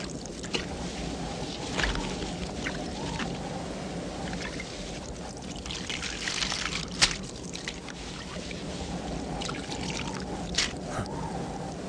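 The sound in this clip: Water drawn from a well being poured, a faint, continuous sloshing and trickling that runs steadily throughout with a few small splashes.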